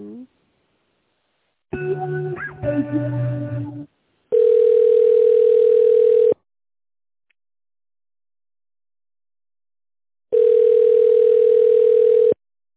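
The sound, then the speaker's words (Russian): Telephone line tones play while a call is transferred to an accounting department: two long, steady, loud single-pitch tones of about two seconds each, separated by silence, with a brief burst of other sound before them. “В бухгалтерии соединю, оставайтесь на линии.”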